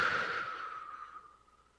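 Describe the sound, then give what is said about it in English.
A deep breath being released: a soft, airy exhale that starts fairly strong and fades smoothly into quiet over under two seconds. “Take a breath in, hold, release.”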